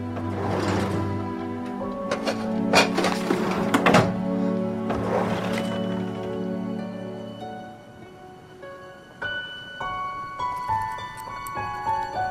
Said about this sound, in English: He then searches through drawers.